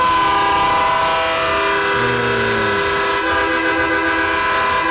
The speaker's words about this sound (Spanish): Pues está bien duro ese pito.